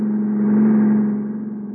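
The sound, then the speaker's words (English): A car driving alongside and past, as a radio drama sound effect: a steady, low engine drone that swells slightly and then eases off, with no voices. “I don't know, but here he comes alongside. Keep your head now.”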